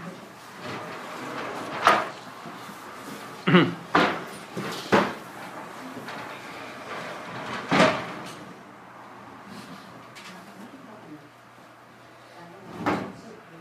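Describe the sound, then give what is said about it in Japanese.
A window is closed during a church service, producing a few sharp clunks and thuds spread across a quiet, faintly murmuring background. “窓を閉めてください。”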